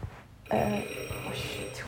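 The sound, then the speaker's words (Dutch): A doorbell rings once in a home, a brief bright chime that starts abruptly and then fades into a faint lingering ring over low background hum. “Nou, daar ging even de deurbel. Ik hoef geen sorry te zeggen, maar er ging even de deurbel.”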